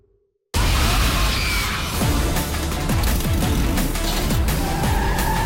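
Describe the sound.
A car skids while driving, bursting in loudly after a brief silence with harsh, continuous tyre and engine noise that surges unevenly throughout.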